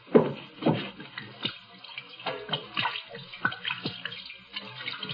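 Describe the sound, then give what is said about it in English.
Liquid splashes as hands are washed with gin, a run of soft irregular splashes and trickles, fairly faint and with no talking. “Hate to waste this good gin washing my hands.”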